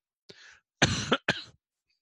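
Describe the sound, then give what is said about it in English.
A person coughing: three harsh bursts, a soft one followed by a loud drawn-out cough and a shorter final one, heard alone before silence. “Sorry about that cough. I don't have the virus.”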